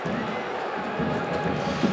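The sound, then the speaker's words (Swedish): At a football match in Vittsjö, the home crowd stands and applauds late in the game, producing a broad, steady roar of clapping and cheering that stays at an even level. “Hemmapubliken har ställt sig upp och applåderar.”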